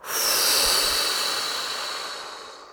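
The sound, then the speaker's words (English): A single long, forceful breath is blown out during a guided breathing exercise. The airy, breathy hiss swells quickly, holds steady, then slowly fades, alone without any talking. “Next breath. Big inhale. And blow.”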